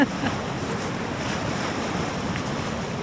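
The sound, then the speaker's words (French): An infragravity ocean wave from a storm swell surges rapidly up the beach as a steady, broad roaring rush of surf that continues without a break, with a rough wind-like hiss. “Voilà, donc ça, c'est vraiment une onde infragravitaire. Voilà. Qui fait qu'effectivement, la mer va remonter sur 40-50 mètres très rapidement.”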